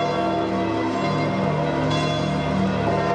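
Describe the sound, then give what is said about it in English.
Church bells ring out at the Vatican after the Christmas message at St. Peter's Basilica, forming a continuous, dense peal of overlapping tones that stays steady and loud throughout. “That's the sound of bells ringing out at the Vatican after Pope Francis gave his annual Christmas message at St. Peter's Basilica.”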